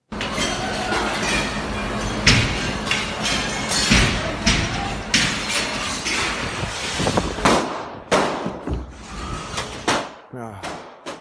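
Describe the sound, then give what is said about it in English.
Gunshots in a video recording of a shooting attack as people try to escape: many loud, sharp bangs and thuds in irregular bursts, some clustered closely, over a dense, noisy background. “You don't hear the people screaming. Just gunshots and the sound of people trying to escape.”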